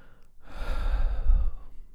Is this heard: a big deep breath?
yes